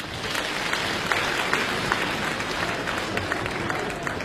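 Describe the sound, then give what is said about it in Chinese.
Audience applause at a crosstalk comedy show as a male and female duo take the stage: steady, dense clapping from a large crowd at moderate loudness. “这个女相声演员上来掌声就是不一样”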